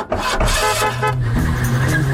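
An old car horn honking: a loud, harsh, raspy blare that sounds continuously through the whole short clip, with a buzzy, nasal tone.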